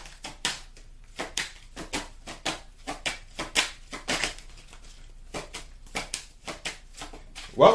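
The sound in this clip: Playing cards being shuffled and drawn, heard as many crisp, papery snaps and riffles in an irregular rhythm, with a louder burst at the very end and no talking.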